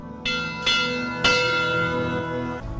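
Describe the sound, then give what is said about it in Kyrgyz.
A memorial bell tolls in honour of climbers lost in the Kyrgyz mountains, with three clear strikes whose bright metallic hum sustains and overlaps between blows. “ушул кыргыз тоолорунан, чокуларынан түшө албай калгандардын урматына коңгуроо кагып коюлушат.”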